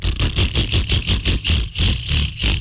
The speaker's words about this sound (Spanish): Si su moto suena así,